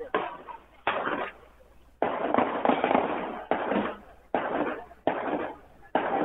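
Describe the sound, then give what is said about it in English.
Sharp gunshot bangs ring out during a shootout at an anniversary event in a memorial square, a series of loud, abrupt cracks at irregular intervals, each followed by a brief decaying tail. “It sounds like gunshots.”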